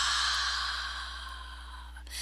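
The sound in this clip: A deep breath is slowly released during a guided breathing exercise, a soft, breathy rush of air that gradually fades over about two seconds, with no talking.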